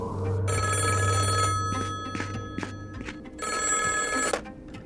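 A telephone bell rings in two bright, rattling bursts separated by a pause of about two seconds, with a low hum underneath the first half.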